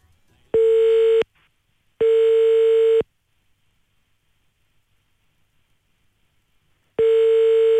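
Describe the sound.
A telephone ringback tone sounds before a call is answered, with steady mid-pitched buzzing rings: a short one, a longer one, then a long silence before a third ring begins.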